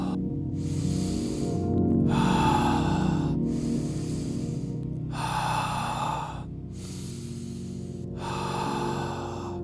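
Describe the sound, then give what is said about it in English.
Slow, deep breathing in and out. Several long, airy inhales and exhales alternate with short pauses, each breath a soft, full rush of air at an even, unhurried pace. “Breathe in, breathe out. Breathe in, breathe out. Breathe in, breathe out. Breathe in, breathe out.”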